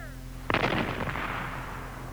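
A single loud gunshot fired on a military command to fire during a gas-mask drill: a sharp blast followed by a long rumbling decay over a steady low hum.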